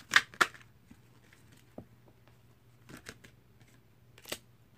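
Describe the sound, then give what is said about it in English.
Tarot cards being shuffled and dropped from the deck during a card reading: a few soft, brief papery flicks and slaps, quite faint, spread over a low steady hum. “I'm going to let three cards fall, and depending on what I feel, they're either going to be a past, present, future, or it's going to be a situation, energies you're dealing with, and advice.”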